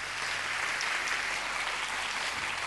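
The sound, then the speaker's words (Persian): Audience applause at a self-confidence seminar, a steady, dense wash of clapping hands that keeps an even loudness throughout. “یه دست برای خودتون بزنید”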